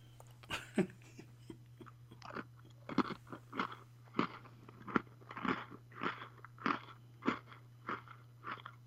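Someone chewing crunchy food with many crisp, regular crunches in a steady rhythm, some louder than others. A constant low hum runs underneath.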